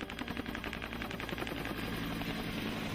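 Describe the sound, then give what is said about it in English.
Rotor blades of a Huey helicopter thump in a rapid, even rhythm, a steady low-level pulsing with no voices over it. “You get that thump, thump, thump of the rotor blade. That's the sound of a Huey.”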